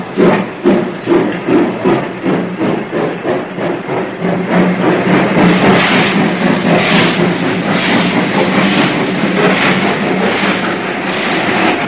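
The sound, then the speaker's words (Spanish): A train departs from a station with a loud, rhythmic clickety-clack of wheels over the rail joints, pulsing evenly before merging into a continuous, heavy rumbling clatter of the cars. “Los policías suben al tren que parte de la estación.”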